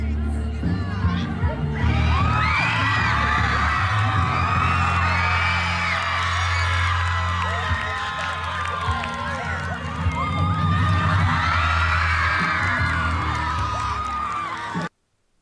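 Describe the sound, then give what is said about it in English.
Children aged 11 and 13 cheer, whoop and shriek continuously for a drag queen dancing on an outdoor stage. The crowd noise stays loud and busy throughout, then cuts off abruptly. “A drag queen danced on an outdoor stage while 11 and 13 year old masked children cheered him on as the sicko that he is.”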